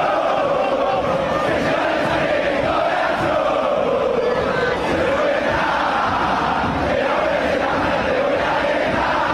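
Argentine football supporters of Boca Juniors chanting a song set to a Colombian vallenato melody: a large crowd singing loudly in unison, with a continuous, rhythmic melodic line.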